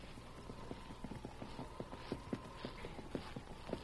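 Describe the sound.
Horses' hooves clip-clopping as riders approach a house on a Christmas-time ride, many crisp hoof strikes in a steady, even walking rhythm, fairly faint, with no talk over them.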